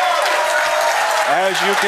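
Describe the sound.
A live audience at a political conference applauds and cheers in a loud, dense, unbroken roar, with a voice starting to speak over the noise toward the end.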